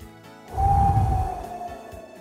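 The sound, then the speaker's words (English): A single deep breath drawn before a prayer gives a soft, breathy rush with a low rumble that swells suddenly, holds briefly, then fades slowly with no talk over it. “let's take a, a good deep breath and have a prayer”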